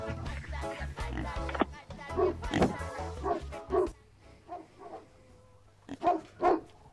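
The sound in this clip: Dog barking and yipping: several short, sharp barks in separate bursts with pauses between them, over a faint low steady hum.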